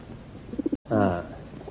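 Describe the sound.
An army carrier pigeon, caught in woodland, coos: a few quick, soft low pulses, a brief break, then a longer throaty call that trails off.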